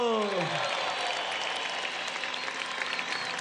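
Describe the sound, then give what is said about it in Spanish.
Applause from an audience at a music tribute event. Dense, steady clapping continues throughout, after a brief voice at the very start. “Un aplauso”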